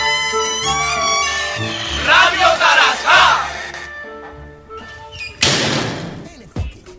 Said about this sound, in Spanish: Se abre la puerta del local.